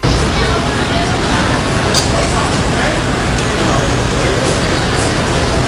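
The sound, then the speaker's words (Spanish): A busy Manhattan street in the morning fills with dense city traffic, a constant loud roar of vehicles with faint indistinct voices blended into the steady wash of noise. “Este es el sonido de Nueva York a las 8:30 de la mañana del 11 de septiembre de 2001, pongamos que es así. Manhattan en plena ebullición.”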